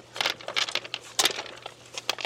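Filter fabric is peeled back from a concrete-set structure in dirt, making crinkly, crackling tearing bursts that come in a few quick, uneven clusters.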